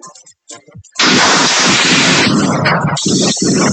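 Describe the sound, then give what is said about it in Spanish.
Bursts of gunfire follow a clash between two irregular armed groups in a jungle area of Guaviare. A few short, sharp bursts give way to a loud, harsh, unbroken roar of rapid fire lasting nearly three seconds. “Ese es el sonido de las ráfagas de las armas luego del enfrentamiento de estos dos grupos irregulares de Iván Mordisco y de alias Calarcá”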